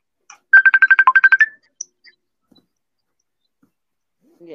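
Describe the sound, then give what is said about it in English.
A phone ringtone for an incoming FaceTime call: a short, rapid run of about ten bright, even electronic pulses at one steady pitch, then silence with a couple of faint clicks. “Is somebody getting a FaceTime call?”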